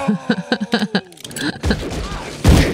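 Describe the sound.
Gunshots fired into the air in an Old West scene: loud, noisy blasts following a short run of voiced syllables, with a heavier bang near the end.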